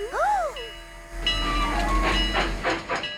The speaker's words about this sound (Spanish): ¡Alto! ¡Esperen! ¡Alto! ¡Oh, oh! ¡El tren se está yendo! ¡Alcáncenlo!